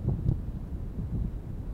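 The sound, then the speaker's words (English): Wind buffeting a microphone outdoors on a Civil War battlefield, a steady, muffled low rumble that pulses slightly, with no talk. “All right, let's get you out of the wind and start getting back towards cars.”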